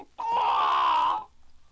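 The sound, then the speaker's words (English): A rooster crowing on a farmyard gate: one loud, sustained call lasting about a second and holding a steady pitch, heard alone. “on the gate sat a rooster, crowing with all his might.”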